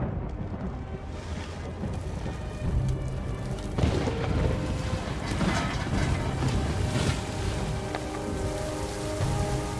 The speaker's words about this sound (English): Day becomes night, and rain lashes down.